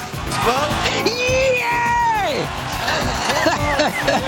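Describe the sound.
A man yells and whoops with joy after his country wins an international song contest: a few short excited cries and one long, drawn-out arching yell, loud over a noisy, crowd-like background.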